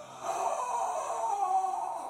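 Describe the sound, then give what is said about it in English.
A voice imitates the lifeless scream of a video game boss: a hollow, breathy wail held steady for about two seconds at a flat middle pitch, with no words. “he doesn't really speak, he doesn't really roar, but he just has like this lifeless scream where he's like,”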